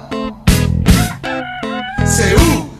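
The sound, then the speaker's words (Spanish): A rooster crows in several long, loud, drawn-out calls in close succession. Each call carries a bright, harmonic tone with short gaps between them, and no other sound competes. “Y en un banco de la plaza el cantar del gallo lo despertaba.”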